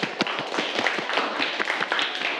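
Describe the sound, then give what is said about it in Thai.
Students clap in a classroom after a correct quiz answer, a steady, dense patter of quick hand claps that carries on without a break, fairly loud. “ปรบมือนักเรียน”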